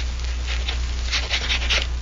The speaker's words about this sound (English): Oh, sure. I'll sign it. Here, give me a pen.